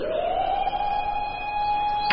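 A factory siren sounds at dawn over a workers' settlement in a remote Russian village in 1906. It gives a sustained, steady wailing tone that rises briefly at the start and then holds level over a soft hiss.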